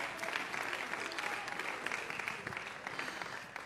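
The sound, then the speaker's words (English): Church audience clapping hands in worship, a steady, dense patter of many hands that stays fairly faint and even throughout, with no talking over it. “Clap your hands unto the Lord and thank him for the word.”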